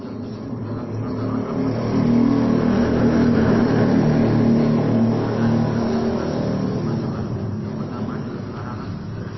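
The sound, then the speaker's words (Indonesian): A motorcycle engine drones loudly and steadily for several seconds, swelling in the middle and then easing back slightly, with a rough, rumbling low tone throughout. “Soalnya kalah dengan suara motor.”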